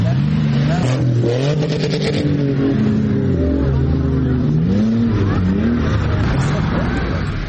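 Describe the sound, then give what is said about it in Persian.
SUVs race over sand dunes in Kandahar. Their engines make a continuous loud roar, with the revs repeatedly rising and falling as the vehicles accelerate. “موترهای شاسی بلند به سرعت تپه های ریگی کندهار را می پیمایند.”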